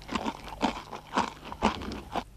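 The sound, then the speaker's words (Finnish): Crunchy snacks taken by hand from a cloth bag are munched in five evenly spaced crunching bites. The chewing is moderately loud and crackly, with no voices. “Pussista käsi kulkee ahneena odottavaa suuta kohti, josta pian kuuluu tyytyväistä rouskutusta.”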